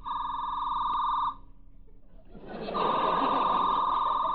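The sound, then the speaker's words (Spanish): A male comedian in a live show vocally imitates a telephone ringing, sustaining a high buzzing ring tone that breaks off, then returns louder over a rising wash of noise. “Suena el teléfono en la otra casa, ¿no?”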